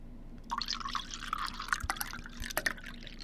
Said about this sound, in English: So you better take that bottle. Let me open this up and pour it.